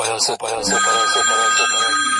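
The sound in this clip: A telephone rings for a bank call, sounding as a steady series of repeating, buzzy ring pulses with a bright tone running beneath them.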